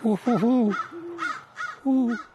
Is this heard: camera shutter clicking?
no